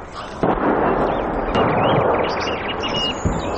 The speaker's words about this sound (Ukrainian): Зараз буквально артпідготовка.